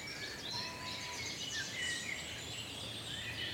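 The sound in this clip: Blackbird song rings through woodland with towering beech trees in the Brecon Beacons. Faint, fluty whistled phrases repeat over a soft background hiss, and a few brief chirps from other birds are mixed in.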